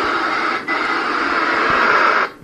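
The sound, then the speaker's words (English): An analog kitchen TV connected to a misconfigured digital converter box gives off a loud, steady buzzing hiss of static, with a brief dip partway through before cutting off abruptly near the end. “He got the one in his bedroom hooked up properly, but the TV in his kitchen sounds like this.”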